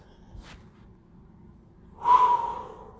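A deep breath taken during a slow 4-7-8 breathing exercise: a broad, airy rush of air swells and fades after a quiet stretch, with only a faint, brief puff before it.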